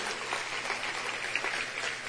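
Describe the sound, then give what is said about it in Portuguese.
Applause from a church audience, a dense, even patter of many hands clapping that holds steady and fairly soft throughout. “Uma salva de palmas para esse pessoal que nos colaborou.”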